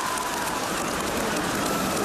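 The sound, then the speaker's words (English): Heavy rain falling during a football match, a dense, even hiss that continues unbroken and fairly loud throughout, with no voices. “is it raining? I can see it's heavy. Confirmation, the rain has hit, so it is only getting slipperier.”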